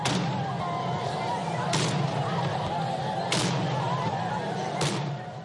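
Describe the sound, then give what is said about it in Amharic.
Artillery salute of cannons fired to honour generals at a funeral ceremony: four sharp booming shots at even intervals of about one and a half seconds, each cutting through a steady, loud background din. “ነቶም ጀነራላት ክብሪ ክበሃል ድማ 17 ግዜ መድፍዕቲ ተኩሱ እዩ።”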